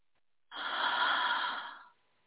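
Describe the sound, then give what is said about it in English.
A person exhaling deeply: a single breathy, airy exhale of about one and a half seconds that fades out at the end, heard alone. “I want you to take a deep breath, but I don't want you to take a deep breath in. I want you to exhale first.”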